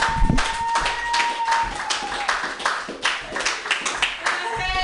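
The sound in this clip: Audience applause for the host of a comedy open mic: dense, steady clapping that fills the whole stretch at a fairly loud level, with voices mixed into the crowd noise.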